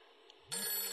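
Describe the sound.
A telephone ringing tone sounds as a call to someone's father connects. After a near-silent first half it starts abruptly as a single loud, sustained ring that lasts to the end.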